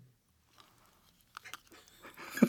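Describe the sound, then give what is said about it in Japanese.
Faint crunching and chewing as a crispy rolled biscuit is eaten in one bite. A few soft, sharp crunches come first, then denser, slightly louder chewing noise builds toward the end. “ルマンドを 一口でいけるって言ったんですよ。うん。一口でいけますよ。”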